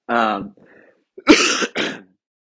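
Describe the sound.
A person coughs a couple of times, with harsh, breathy bursts that follow a short, rough throat sound.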